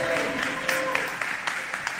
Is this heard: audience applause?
yes